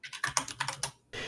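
Rapid typing on a computer keyboard, a quick burst of several crisp keystrokes in uneven rhythm, then a short pause before another soft clatter, quiet and with no talking.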